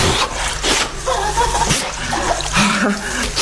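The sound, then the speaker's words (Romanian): Water splashing as a person washes their face, heard as a few rough, noisy splashes and drips of moderate loudness, with no talk over them. “Ce faci? Nu vezi? Uite, mă spăl pe față.”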